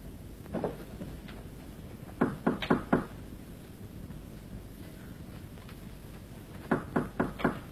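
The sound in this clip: Knocking on a door during a traditional Beijing opera stage performance: several bursts of quick, sharp raps separated by pauses, a short pair first, then a cluster of about five, then about four, over a low steady background.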